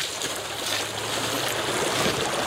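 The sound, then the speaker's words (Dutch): A brook swollen by recent rain runs in full flow, with a steady, broad rushing of water that holds an even level throughout and has no talk over it. “En dan passeren we de Springendalse Beek. En die stroomt voluit, kan ik je vertellen.”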